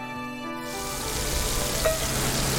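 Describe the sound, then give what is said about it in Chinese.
Crab roe, meat and shells sizzle as they are stir-fried in a wok, a steady, loud, hissing fry noise that starts shortly after the beginning and holds evenly throughout. “再倒面包蟹啲膏落去，之后倒埋啲蟹肉蟹壳一齐炒香煸香”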